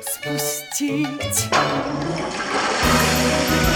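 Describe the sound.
A toilet flush: after brief tonal sounds, rushing water bursts in loudly and keeps swirling and gushing steadily to the end.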